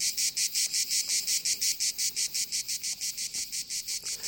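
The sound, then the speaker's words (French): Cicadas sing in a loud, high-pitched buzzing song chopped into many rapid, evenly spaced pulses, steady in rhythm and heard alone throughout. “Voici les cigales envoyées par Thomas Beau. Jean-Frédéric monte le son.”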